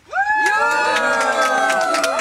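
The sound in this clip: Audience cheering during a live radio vote decided by applause for a band: a loud swell of shouts and whoops that rises quickly and then holds steady, with high voices calling out throughout.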